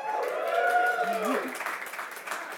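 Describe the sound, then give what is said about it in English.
An enthusiastic audience at the Royal Institution in London whoops on request. Several voices give rising, high whoops together over a patter of clapping, and the sound tapers off toward the end. “That is a very good whoop.”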